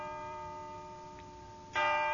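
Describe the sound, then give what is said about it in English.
Church bells ring in a cacophony, sustained layered tones humming steadily before a fresh, louder strike near the end renews the ringing. “I recall a cacophony of church bells.”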